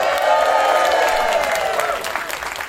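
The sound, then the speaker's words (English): A live audience at the Love Supreme Jazz Festival applauds and cheers in a loud, sustained wash of clapping and shouts that eases off toward the end. “That's the live audience, just in case you didn't know.”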